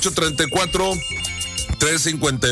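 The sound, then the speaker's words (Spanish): A telephone rings with an incoming call during a Spanish-language radio morning show, a steady electronic ring tone sitting under a continuous voice. “Tenemos llamada.”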